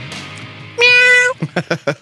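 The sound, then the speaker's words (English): A person imitating a cat's meow with one drawn-out, nasal, high meow, followed by a few short spoken syllables. “Meow. Give me a meow”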